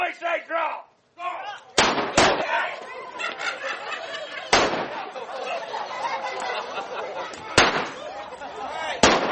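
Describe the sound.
Gunshots from a staged gunfight in the old mining town of Oatman: five loud, sharp cracks at irregular intervals, heard over steady crowd chatter and voices.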